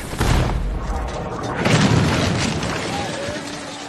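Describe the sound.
Cannon fire in a battle scene from the 2004 film The Alamo, with heavy, rumbling booms and broad blast noise that swells and recedes, mixed with voices.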